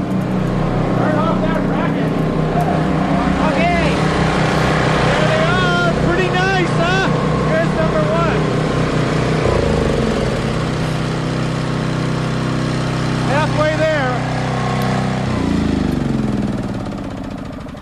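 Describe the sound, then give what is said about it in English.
Loud, steady engine drone from two generators running together, 8 kW combined, in a building basement. A dense low rumble holds throughout with voices talking over it, and it eases slightly near the end. “And the next sound you hear, which will sound like twin fighter bombers, really are generators.”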